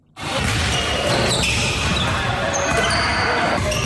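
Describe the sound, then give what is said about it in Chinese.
Basketballs dribbled and shot by residents inside an air-conditioned community gym in Qingshanhu District, Nanchang, Jiangxi: dense bouncing thuds and shoe activity run continuously under a loud, steady wash of court noise. “运球突破，起跳投篮，在江西南昌青山湖区社区体育馆内，市民们尽享运动乐趣。”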